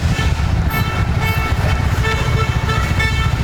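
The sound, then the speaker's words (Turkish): Car horns honk at cows crossing the road: a sustained, bright horn tone over constant traffic noise from road vehicles. “Bazı sürücüler ise hayvanları yoldan uzaklaştırmak için kornaya basıp yavaşladı.”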